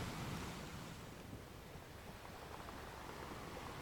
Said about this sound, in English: a second home for you at the ocean, as you are rocked and held by Mother Nature.